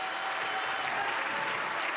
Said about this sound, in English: Somebody clap your hands to the Lord.